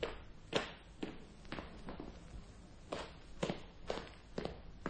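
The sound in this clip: Footsteps from a Columbia stereo demonstration record: one person walks in a steady series of faint, crisp steps with quiet gaps between them.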